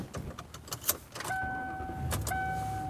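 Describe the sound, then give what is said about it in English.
A car heard from inside: a few clicks and rattles at first, then a steady hum with a thin, sustained tone that breaks off once and resumes. “I am driving home.”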